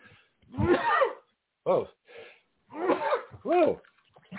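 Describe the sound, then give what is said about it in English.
A sudden human sneeze bursts out with breathy, voiced gasps and exhalations. Several loud bursts are separated by brief silences. “So spontaneous sneeze here.”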